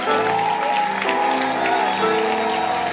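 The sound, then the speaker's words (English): A church audience claps together to celebrate the word of God during a worship service: continuous, dense, even clapping with sustained tonal voices or music running underneath for the whole stretch. “Clap. Let's celebrate it.”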